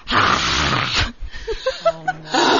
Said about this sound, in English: Do a sexy exhale, he said.